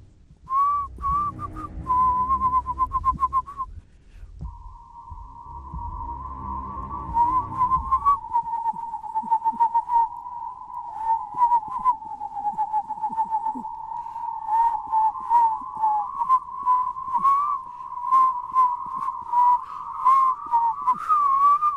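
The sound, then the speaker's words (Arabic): A man whistles a long, wavering tune while walking behind another person past cemeteries. The clear, loud whistle holds a steady pitch band in many short phrases, with a low rumble early on and no talking. “عليت صوتي شوية علشان أغطي على صوت الصفير بتاعه”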